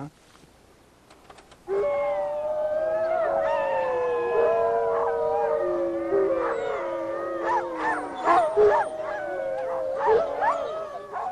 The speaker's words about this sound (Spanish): El aullido necesita ser direccionado y lo puedes lograr utilizando este plato. Vamos a rebotar el sonido del parlante al plato y luego al bosque.